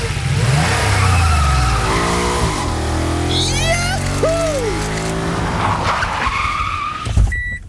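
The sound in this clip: Car engine revving hard and accelerating past a speed camera on a 50 km/h town street in Schleswig. The loud engine note climbs in pitch, a short squealing tone cuts in midway, and the roar then settles into a steady drone.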